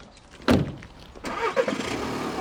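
A car driving up Dunsink Lane in Dublin: engine and road noise with a sharp thump near the start, then a swelling rumble that stays loud to the end.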